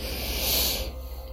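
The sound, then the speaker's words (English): A deep breath drawn in to fill the belly: a steady, breathy hiss that holds for most of a second, then drops away into quieter, fainter air. “Take a deep inhale, fill your belly up.”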